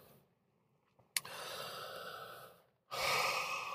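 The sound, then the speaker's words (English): A breath taken close to a microphone during a pause in talk: two airy rushes of breathy noise, the first following a brief click, the second louder and continuing to the end, with no voice. “If I just take time enough to take a breath.”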